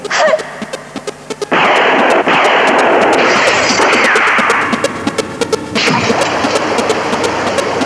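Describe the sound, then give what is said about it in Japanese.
Gunfire: a rapid run of many sharp shots over a loud, dense roar that keeps going for the whole eight seconds, with a few heavier bursts along the way. “構わんから撃て。”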